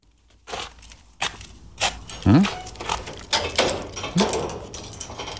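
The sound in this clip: Keys jangle as a key-keeper walks, with irregular metallic clinks and soft knocks scattered across the stretch, some louder than others.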